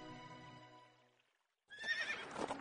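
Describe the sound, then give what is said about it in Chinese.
Horse sounds with a whinny and hoofbeats, heard after a brief lull as a loud, noisy burst that follows a fading tonal passage. “远处似乎有马蹄声传来，隐约还起了阵阵躁动。片刻间，那马蹄声便朝云柯他们所在的地方靠近了来。”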